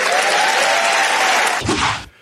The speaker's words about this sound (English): There was the announcement yesterday at the LNP conference. I mean, a massive round of applause by, what, the 500 people there.